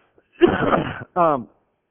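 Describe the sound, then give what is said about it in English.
A throat clearing, a rough, gravelly rasp lasting over half a second. After a brief gap comes a short voiced grunt. “excuse me, I got something in my throat here. It's called my Adam's apple. Keeps getting in the way.”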